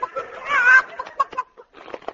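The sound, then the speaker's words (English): Chicken-like clucking from a horse named Leghorn that thinks it is a chicken: short clucks around a drawn-out, higher squawk, followed by more quick clucks. “Steady, Leghorn. Steady. Leghorn? That's a funny name for a horse. Yes, well, he has a mental block. He thinks he's a chicken.”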